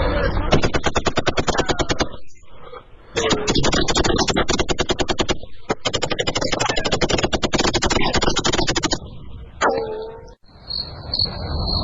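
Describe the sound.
Automatic gunfire rattles out as police open fire on an armed smugglers' convoy: loud, rapid machine-gun shots in two long sustained bursts separated by a brief pause, followed by scattered quieter sounds.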